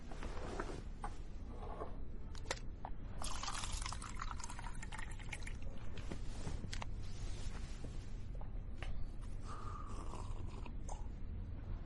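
Water poured into a glass: a soft, continuous trickling pour with a few faint creaks, running steadily through the whole stretch at low volume.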